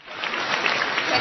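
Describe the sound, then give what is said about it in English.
Standing ovation from delegates at a UN climate summit in Cancun, a brief, dense burst of clapping that swells in and holds evenly loud to the end. “That's the sound of a standing ovation from delegates at the UN Climate Summit in Cancun after finally reaching an agreement on major components of a climate change deal.”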